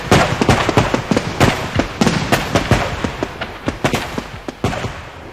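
Firecracker bombs go off in a long, rapid, irregular string of loud, sharp bangs and pops, many blasts overlapping with crackling between them.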